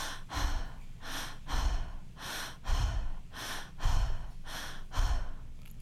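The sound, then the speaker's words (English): Connected breathing in a transformational breathwork style, each inhale drawn strongly and each exhale released loosely, in an unbroken cycle of many breaths with a steady rhythm of airy rushes and soft low puffs, without talk. “So you emphasize the inhale and you relax the exhale. So it's going to sound like this.”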